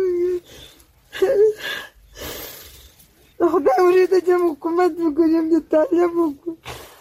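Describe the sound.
A 42-year-old woman wails in grief for her two sons, killed in fighting between Afghan soldiers and Taliban. Loud, tonal, trembling cries alternate with breathy sobs, gasps and short silences.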